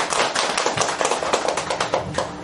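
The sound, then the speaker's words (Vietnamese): Applause from an audience at a Buddhist dharma lecture, many hands clapping densely and steadily for the whole stretch with no break or fade. “Kính thưa quý vị, một lần nữa xin quý vị cho một tràng phát thay thật lớn để khích lệ tinh thần diễn dương đạo lý của Đại Đức Thích Minh Thành”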